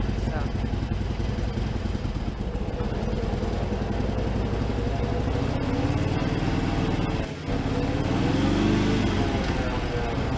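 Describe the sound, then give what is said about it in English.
A vehicle engine drones steadily under throttle, with a brief dip as the gear is shifted up, then the engine note climbs again as it accelerates. A voice talks over the engine noise. “So once you get to that point, match it with a little bit of throttle, get up to about 25 miles an hour or so, and then shift up in a second. Shift up, okay.”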